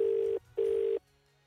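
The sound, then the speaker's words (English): Ringing tone on an outgoing phone call: two steady, mid-pitched buzzing bursts of about a third of a second each, separated by a short gap and then followed by silence, with no talk. “So phone is ringing.”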